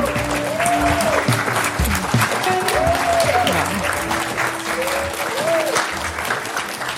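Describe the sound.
Sustained audience applause welcomes hosts on stage at Experimentarium, steady and fairly loud throughout the whole stretch, with voices calling out over the clapping.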